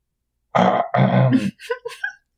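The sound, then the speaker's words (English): A voice imitates a robot clearing its metal throat: a loud, gravelly two-part rasp, then a few shorter, higher croaks and clicks, with no words spoken. “kind of clears his metal throat”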